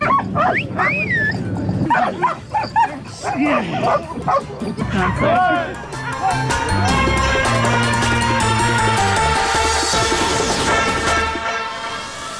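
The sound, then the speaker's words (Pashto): Mine detection dogs at a UN training centre in Kabul, where 200 dogs are trained, bark, yip and whimper in a busy, overlapping jumble. People talk among the dog sounds early on. “د ملګرو ملتو په یو مرکز کې په کابل کې 200 سپی د ماينونو د پلټنې لپاره روزل کیږي”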